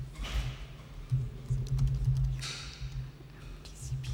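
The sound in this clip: Typing a file name on a computer keyboard: several light, irregular key clicks over a low steady hum.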